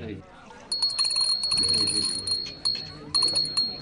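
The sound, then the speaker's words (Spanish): A small bell rings in several short bursts of bright, high tinkling, with voices and other low sounds running underneath. “Cada vez que suena una campanita, quiere decir que un ángel consiguió sus alas.”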